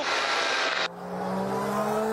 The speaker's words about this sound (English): There's a fire at the back of that Mercedes car. His engine has blown